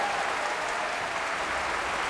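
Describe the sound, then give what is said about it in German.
Steady applause from a concert audience after a piano concerto performance in Munich, honoring an 80-year-old soloist; a dense, even wash of clapping holds at the same level throughout. “Jubel und großer Applaus für den Pianisten Rudolf Buchbinder.”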